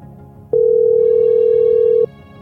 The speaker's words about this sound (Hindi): अरे भैया फोन भी नहीं उठा रहे।